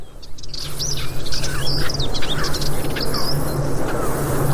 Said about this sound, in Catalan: se sent molt a perdiu, també. I comencem a sentir, per exemple, la puput, se sentia també. I alguns tallarols.